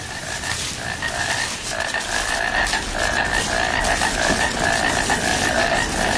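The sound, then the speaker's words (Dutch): Painted frogs croak in a dense, steady chorus of rapid repeated calls that fills the whole stretch at a constant, fairly loud level, with no voices. “Even luisteren nog naar die schijftongkikker.”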